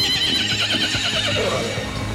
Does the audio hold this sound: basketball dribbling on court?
no